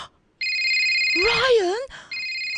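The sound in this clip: A new phone rings with a steady, high electronic ringtone that cuts off midway while a wavering vocal exclamation rises and falls, then the ring starts again, loud and clear.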